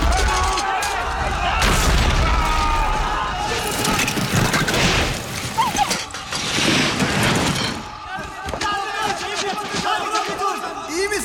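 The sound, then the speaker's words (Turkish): Ice cracking and breaking sounds as a series of heavy crashes, sharp snaps and booming rumbles that swell and fade over several seconds, with voices mixed in. “Ses ne? Buz kırılıyor! Koşun!”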